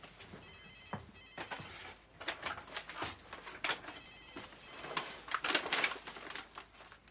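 A telephone rings unanswered in a home, its ringing coming in repeated short bursts of bright, rattling bell tone, fairly quiet and with no voices.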